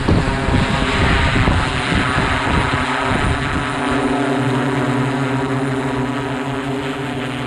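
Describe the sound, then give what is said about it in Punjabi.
Drones flying overhead give a loud, steady whirring rotor drone with a sustained hum of layered tones and broad rushing noise. It continues without a break for the whole clip, with no voices. “ਇਸ ਸਾਲ ਅਸਮਾਨ ਵਿੱਚ ਉੱਡ ਰਹੇ ਸਨ drone.”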